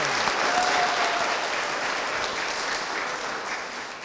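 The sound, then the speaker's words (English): Audience applause at a conversation event with the mayor at a children's museum in Pittsburgh: dense, steady clapping from many hands, loud and continuous throughout, easing slightly at the end. “So big round of applause.”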